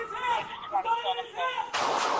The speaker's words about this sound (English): The officer reported he believed the subject posed an imminent threat, and that officer discharged multiple rounds from their duty handgun.